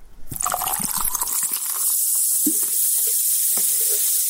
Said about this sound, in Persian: این صدای آشنا که بعید است بعد از شنیدنش در یک روز گرم تابستان هوس نوشابه نکنید، برای تبلیغات نوشابه‌های مختلف استفاده می شود.